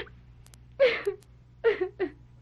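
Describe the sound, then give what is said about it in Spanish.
A woman cries in a few halting, whimpering sobs, one shaky burst and then a quicker cluster of catching sobs against a quiet background. “Mira, no llores nada. No llores nada y háblame.”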